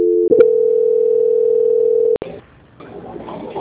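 A steady telephone tone plays while a call is transferred: a brief double beep, then one continuous mid-pitched tone of about two seconds that cuts off into low, uneven line noise.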